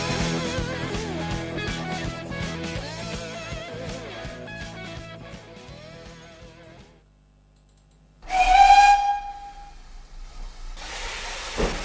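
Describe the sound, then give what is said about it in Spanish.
A steam train whistle signals departure: after fading mechanical clatter and a near-silent pause, a loud burst of hissing steam carries a short, clear whistle tone, followed later by another brief hiss. “nos vamos a subir al tren que enseguida va a pitar su salida.”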